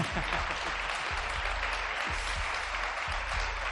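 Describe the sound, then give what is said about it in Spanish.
Studio audience applause, a steady, fairly faint wash of many hands clapping, with a low rhythmic pulse running beneath it throughout. “Los que habéis estado todo el día, creo que no es suficiente, pero otro aplauso para Mariajo.”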